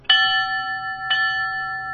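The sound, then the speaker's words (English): Two strikes of a bell at a memorial ceremony for firefighters, about one second apart. Each strike has a sharp attack and then a long, steady ringing tone. “20 bell strikes at a ceremony in downtown Sparta helping remember firefighters who lost their lives during a terror attack 18 years ago today.”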